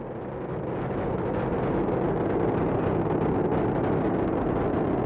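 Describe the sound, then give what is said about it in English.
Loud, steady roar of the SLS rocket climbing during ascent on the Artemis 1 launch, a dense, continuous rumble with no voices and no break. “SLS now traveling 607 miles per hour. You're looking at 8.8 million pounds of maximum thrust.”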